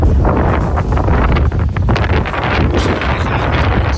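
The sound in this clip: Strong wind buffets the microphone outdoors during a wet morning dog walk, a loud, continuous roaring rumble with gusty surges throughout.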